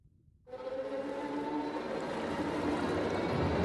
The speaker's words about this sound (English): The hand rises up into the clear air, fingers splayed. Water cascading off it as Maria breaks the surface.